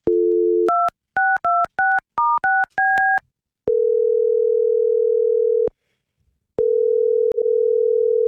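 A telephone call being placed: a brief dial tone, then a rapid run of keypad touch-tones, followed by two long, steady ringback tones separated by a short silence.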